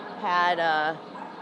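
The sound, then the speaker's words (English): A dog gives a single drawn-out bark with a tonal, whining edge, lasting under a second and standing out clearly against a quiet background. “there's a lot of dog action.”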